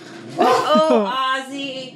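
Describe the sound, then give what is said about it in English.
A dog whines and yips, eager for a treat, with high, wavering whimpers rising and falling in pitch in a few connected bursts. “Throw a little bone to the dog. There we go. Threw him a treat.”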